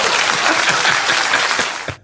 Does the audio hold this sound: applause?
yes